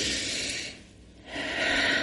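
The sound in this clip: A deep breath drawn in makes a quiet, airy rush of breath noise that thins briefly in the middle, then swells fuller again toward the end, with no talking.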